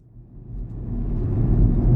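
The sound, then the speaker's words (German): A car driving through the countryside of County Sligo, Ireland: a low engine rumble that grows steadily louder across two seconds, with no voices. “Kevin Barry fährt durch die irische Grafschaft Sligo und trotzdem wähnt sich der 56-jährige Schriftsteller in den USA.”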